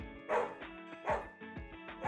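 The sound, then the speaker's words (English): Dogs barking, a few sharp, loud barks with higher yips between them over a steady tonal background. “we got dogs going. Oh, my God. There's dogs! There's dogs!”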